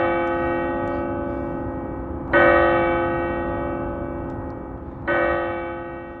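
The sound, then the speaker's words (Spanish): A clock tower bell strikes at midnight: two heavy, deep strikes land a few seconds apart over the fading ring of an earlier one. Each blow rings out loudly with a rich metallic hum that decays slowly. “Vosotros preguntáis cómo hacer que el Big Ben dé 13 campanadas al llegar la medianoche.”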